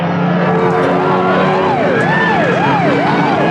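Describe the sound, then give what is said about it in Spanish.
Police patrol car siren in pursuit, wailing in repeated rising and falling sweeps over a dense, steady background, loud throughout with no voices. “Ahí viene ya una patrulla persiguiéndonos.”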